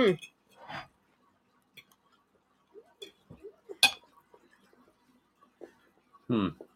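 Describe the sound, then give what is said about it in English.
Cutlery and dishes clink during a dinner: scattered sharp metallic clinks and taps, some bright and loud, others faint, broken up by bursts of people talking. “We're eating dinner, too. I'm sorry. Mm-hmm. We're talking and eating dinner.”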